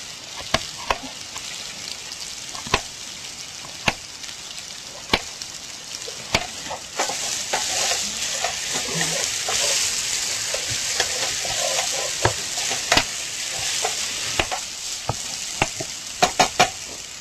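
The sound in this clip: Onion seasoned with ají de color frying in a pan, a bright steady sizzle with many sharp clicks and scrapes from stirring scattered through it.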